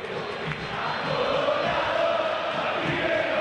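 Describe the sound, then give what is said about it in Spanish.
River Plate supporters cheering and chanting inside a football stadium during a penalty shootout: a continuous, moderately loud crowd roar that stays steady, with no break in the voices. “El público de River que no para de alentar.”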